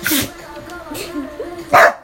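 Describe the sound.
A pet dog barks a few times in sharp bursts while a person talks loudly over it.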